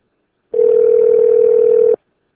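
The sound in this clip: A steady, unbroken telephone dial tone holds a constant mid pitch for about one and a half seconds, starting and stopping abruptly, alone with no dialing or voices.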